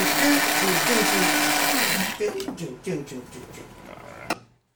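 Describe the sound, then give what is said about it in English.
A coffee grinder whirs in a dense, steady grind for about two seconds, then gives way to uneven, voice-like bursts. “I'm Foley! Grinding! Grinding! Now is when we need that.”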